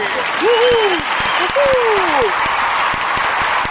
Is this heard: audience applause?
yes